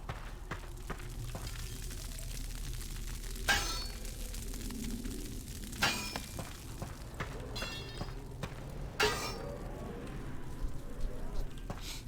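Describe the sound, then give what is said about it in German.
Metallic hammer clangs ring out as a sword is forged in a medieval blacksmith simulator video game. A few sharp strikes stand out over a steady low background. “Ja, wir haben einen Hammer. Nice. Ha, falsch. Erstmal Schwert in Schmiede rein. Schwert heiß machen.”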